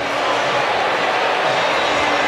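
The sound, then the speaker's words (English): Football stadium crowd booing after a replay review upholds a completed pass, making a steady, dense wash of noise from many voices with no clear breaks or peaks. “Fans are booing, but we thought so as well.”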